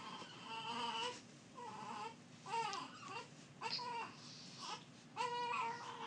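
A baby cries during a diaper change, letting out many short, high-pitched wailing bursts with brief breaths between them and a few whimpering, fussy tones; the crying is fairly loud and stands alone without talk.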